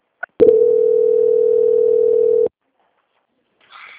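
A telephone line tone sounds during a call transfer to a bank's quality-control department: a brief click, then one steady mid-pitched tone holding about two seconds before cutting off to near silence, with a faint, higher sound near the end.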